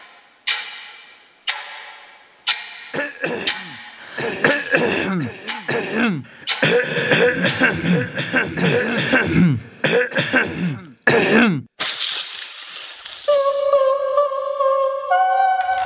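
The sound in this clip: Throat clearing comes in a run of rough, gravelly bursts and coughs from one voice, after a few opening ticks, and ends in a bright, sustained ringing tone.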